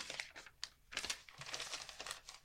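Quiet rustling of paper newspaper cuttings, with many irregular crinkles and soft crackles as sheets are shuffled and handled.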